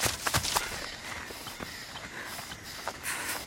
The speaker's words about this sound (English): Figure runs on the other side of the trees.